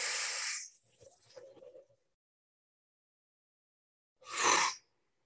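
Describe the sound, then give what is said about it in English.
Deep breaths drawn in during a guided solstice meditation: loud, breathy rushes of air, a long one at the start and another short one a few seconds later, with a quiet gap between. “Go ahead, take some nice deep breaths here as you breathe in the sun, like through your heart, through your eyeballs, basically. Go ahead, together, inhales.”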